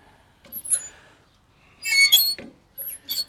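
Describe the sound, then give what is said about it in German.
Squeaking from a part that needs oil, a few short, high-pitched squeaks separated by quiet gaps, with wind mentioned outdoors. “Quietscht immer noch. Ja, wird sich auch nicht ändern, wenn ich kein Öl dran tue.”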